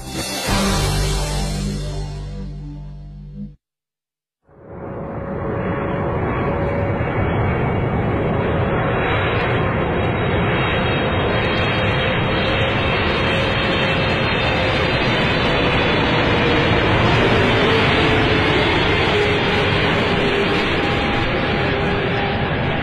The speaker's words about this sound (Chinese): 六月五号下午，南京禄口机场，从长春飞来的 CZ 六五幺幺航班平安落地。